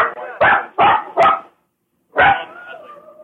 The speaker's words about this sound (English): God, the fucking dogs.